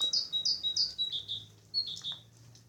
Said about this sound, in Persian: این صدایی که میشنویم صدای قطرهای بارونه و یه پرندهی که نشسته رو سیم برق، شاید بلبل، نمیدونم